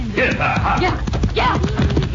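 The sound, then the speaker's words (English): Horse hooves clip-clop in a quick, uneven series of knocks, heard together with voices throughout. “Get on your horse.”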